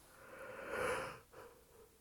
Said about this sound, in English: I apologize for the yawning, it is quite late. That's why I'm in bed and I'm recording this ramble fab.